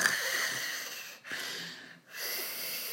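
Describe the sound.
A voice imitates loud snoring, mimicking someone snoring while wide awake in a meeting: three harsh, raspy, wheezing bursts with brief pauses between them.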